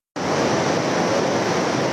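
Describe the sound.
A torrent of muddy flash-flood water in central Nepal, after a glacier collapse, rushes downstream as a loud, dense, unbroken roar that starts abruptly and holds steady.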